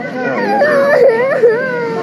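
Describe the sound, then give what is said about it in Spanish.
A child cries in wavering, whimpering wails among Guatemalan migrants, with the sobbing voice rising and falling in pitch continuously for about two seconds. “No llores.”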